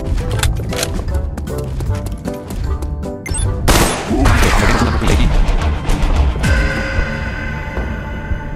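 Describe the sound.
M14 rifle gunfire in a video game: many sharp, loud shots in dense, rapid bursts that run almost without pause alongside other crashing game effects.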